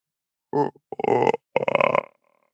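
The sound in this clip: A human voice imitating a koala's deep mating bellow, producing three rough, belching grunts, the first short and the last two longer and rasping, separated by brief pauses.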